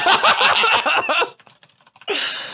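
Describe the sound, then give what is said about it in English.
Computer keyboard keystrokes clatter in a short, quick run during a pause in talk while someone searches for a grill, and voices are heard before and after. “I just typed in Myrtle Beach grill. That's not what I meant to type in.”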